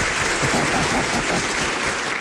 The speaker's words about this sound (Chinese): 鼓掌啊，欣赏啊。